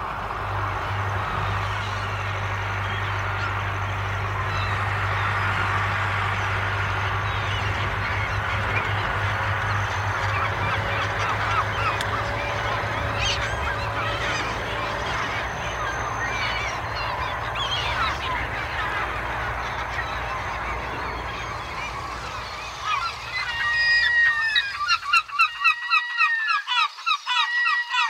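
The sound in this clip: Gulls calling under a clear, high-pressure sky, a few loud, harsh cries clustered near the end over a steady background rumble.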